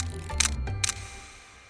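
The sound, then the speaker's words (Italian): A camera shutter clicks twice in quick succession as photos are taken of a large bronze statue head unearthed at an excavation. Faint background noise lingers after the clicks. “Incredulo, Cerasi inizia a scattare foto e immortalare tutto.”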